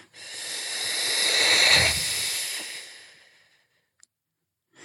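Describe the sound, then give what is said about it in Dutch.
A long, soft "ffff" exhale hisses steadily as the breath is blown out completely. It swells, then tapers away over about three seconds, followed by near silence and a brief click. “als je zo zit en je begint op een zachte F en blaast die helemaal leeg”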